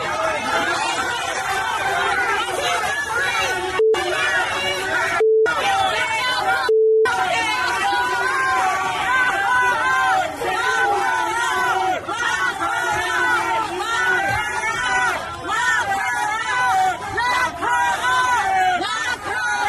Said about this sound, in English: And after leaving the speech, Hillary got a very warm welcome from her fellow New Yorkers leaving the hotel in New York City.